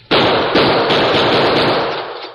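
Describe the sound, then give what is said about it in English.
Gunshots fired at a chain staple: a few loud, sharp cracks merge into a dense, continuous burst of noise that fades slowly toward the end. “I'm going to try some bullets on that staple.”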